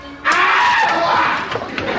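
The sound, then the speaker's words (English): A primal scream bursts in after a brief quiet moment: one loud, raspy human yell held for nearly two seconds without a break. “Well, Les is right. That primal scream stuff really helps get it out.”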